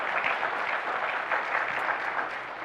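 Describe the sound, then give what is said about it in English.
Steady applause from an audience honoring a graduate during a Sunday morning graduation recognition: dense, even clapping that holds a constant, fairly loud level for the whole stretch, with no voices above it. “When we say your name and you're done and your parents have taken pictures, you can step on out, give him a hand.”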